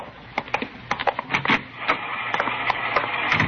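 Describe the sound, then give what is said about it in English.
An IBM punch card machine processes cards with a rapid, irregular mechanical clatter. Sharp ticks and clacks ride over a steady whirring, and the rattling keeps going throughout. “She's running all the cards on previous shooting through the IBM machine.”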